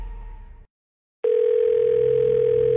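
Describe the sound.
A telephone dial tone sounds before a call: a loud, steady, unbroken hum that holds at one pitch for over a second and a half. A short burst of other sound comes first, then a brief silence.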